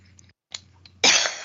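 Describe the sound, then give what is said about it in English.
A woman coughs once, a sharp, harsh, breathy burst that comes loudly at the end after a stretch of faint, low background noise. “Oh, she's laughing. You made her cough. Or coughing, rather.”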